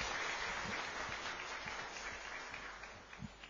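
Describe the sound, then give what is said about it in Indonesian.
An audience claps and applauds before a speaker begins a religious talk. The applause is a steady, dense patter that fades slightly toward the end, with no voices. “Boleh tepuk tangan kayaknya biar lebih semangat.”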